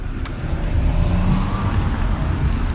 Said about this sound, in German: Ich fahre zum Reservat der Musqueam.